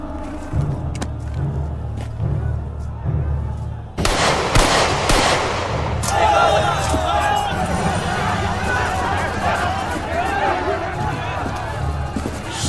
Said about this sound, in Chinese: 所以我开枪给你报个信儿。